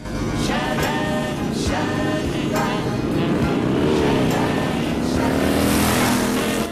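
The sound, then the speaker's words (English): Motorcycle engines ridden by a group of bikers down a long road, a loud continuous roar with a slight rise in engine pitch toward the end. “The bikers, wearing colored wigs, are on their motorcycles riding down a long road.”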